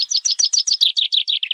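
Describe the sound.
Small birds chirp in a quick, even series of many bright, high-pitched notes, each short and sharp, sounding clearly on their own without talk.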